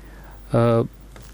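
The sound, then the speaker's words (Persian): A single short electronic tone on a phone line after a dropped call to a radio show: a flat, buzzy beep lasting about a third of a second, alone over faint line hiss. “اوریدونکو سره مو اړیکه پرې شو نن په ټلیفوني شبکه کې هم یو څه ستونزې شته دي”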